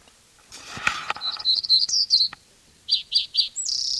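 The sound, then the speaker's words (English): A black-throated grey warbler sings a run of high, buzzy notes. After a short pause it gives three clipped notes and a final higher buzz. Softer rustling comes before the song. “Blackthroat Grey Warbler in there.”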